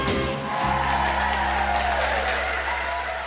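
Studio audience applause welcoming the host of the TV quiz show Blockbusters, a dense, steady wash of clapping that holds at an even, loud level for about three seconds without voices.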